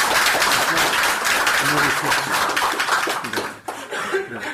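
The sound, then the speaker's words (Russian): Audience applause at a lecture gathering: steady, dense clapping from many hands runs for several seconds, with voices audible underneath. “Давайте мы им похлопаем.”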